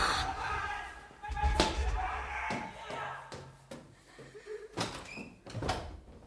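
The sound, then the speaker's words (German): An apartment door is opened amid a series of knocks, clicks and a few sharp bangs of varying loudness, with voices talking over and between them. “öffnet seine Wohnungstür”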